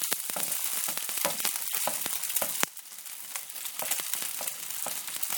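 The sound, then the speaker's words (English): Meatballs fry in too much oil in a saucepan, giving a dense, steady sizzle with sharp pops and spits throughout and a brief drop in loudness midway. “Meatballs are turning around quite a bit.”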